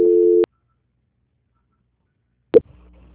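Telephone line tones during a call transfer: a short steady beep, then about two seconds of silence, then a sharp click followed by faint low line noise.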